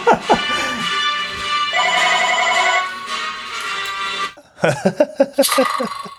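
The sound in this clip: A telephone ringing as an incoming call interrupts a talk: a ringtone of sustained, bright tonal notes that shift once partway through, loud and continuous for about four seconds before giving way to choppier, broken sounds.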